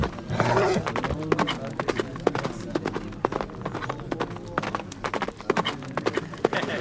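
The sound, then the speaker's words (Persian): Hooves of a horse galloping down a hill as a rider turns back toward his troops: rapid, continuous pounding beats over a dense, rumbling background. “سر اسب را برگرداند و از تپه سرازیر شد و به سویشان تاخت.”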